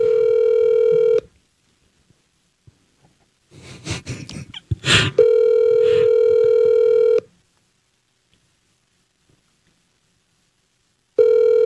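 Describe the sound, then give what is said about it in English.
Telephone ring tone on a call being placed to wake someone: steady buzzing ring bursts about two seconds long, separated by long silences, with a brief patch of clicks and handling noise between the first and second rings. “I'm going to call her right now and just wake her up.”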